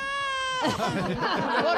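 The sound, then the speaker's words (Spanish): A small child crying at a festive chotis performance, a brief, wavering, whimpering cry of moderate loudness that follows a short, steady held tone. “El nene creo que no va a cantar porque se ha puesto a llorar. No llores, es bonito.”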